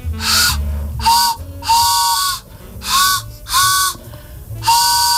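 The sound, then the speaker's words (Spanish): A homemade device imitating an old steam-train whistle sounds six loud, hooting blasts of varying length, separated by short gaps, with a breathy, chord-like whistle tone. “¿Pero eso qué hace? ¿Cómo suena? Es un tren.”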